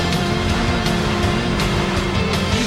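Racing car engine in the Sega Rally video game as the car goes over jumps, a loud, steady roar that holds throughout with a faintly pulsing texture.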